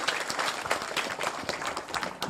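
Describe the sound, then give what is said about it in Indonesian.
Audience applause greeting a group of performers at an Indonesian stage event: dense, steady clapping that fills the whole stretch with no pause, loud and even throughout. “Kita sambut, kita berikan aplaus yang meriah untuk teman-teman Sedo Kemil.”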